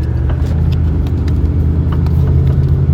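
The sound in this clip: A car engine rumbles steadily with a deep, constant drone and faint road noise, loud and alone, with no clear rise in pitch.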